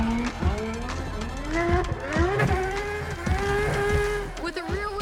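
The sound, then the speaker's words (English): A McLaren drift car slides sideways around a track, its engine note climbing in repeated rising sweeps as the revs build and drop, loud and continuous throughout. “Mike has to go around the track drifting, creating smoke and a show.”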